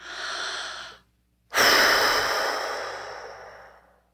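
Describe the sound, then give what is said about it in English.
Deep breathing during a calming exercise for anxious worry: one breath sound, a pause of near silence, then a second, longer and louder breath that slowly fades out, with no talking. “here's a great little exercise when you find yourself in future fear.”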